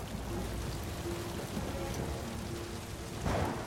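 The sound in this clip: Rain falls during a thunderstorm as a steady, dense hiss throughout, with a deeper, louder swell near the end.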